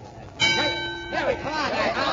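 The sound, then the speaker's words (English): A boxing ring bell rings to start the round with a bright metallic clang, followed by a further strike. The ringing tones linger and ring on. “And there's the bell.”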